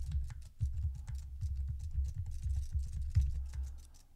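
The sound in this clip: Keystrokes on a computer keyboard as a line of text is typed: many quiet, fairly even clicks in a steady pattering rhythm throughout, with no voices.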